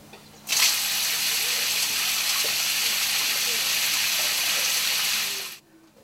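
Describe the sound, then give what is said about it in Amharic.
Water pours from an outdoor shower used for washing feet, a steady rushing hiss that starts abruptly, holds evenly for about five seconds, then cuts off. “የውጭ ሻወር አለ ማድቤት አለ እንግዲህ እግራችን የምንታጠብበት ሲሆን ይሄ ውሃ ሲያፈስልን እንታጠብበታለን”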